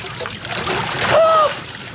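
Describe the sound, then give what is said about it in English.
A single oar paddles through water in pitch darkness after a boat capsized, a continuous watery swishing that swells in the middle, with a brief high tonal sound riding over it. “I'm paddling with one oar. I'm trying to find you in this pitch black and get closer.”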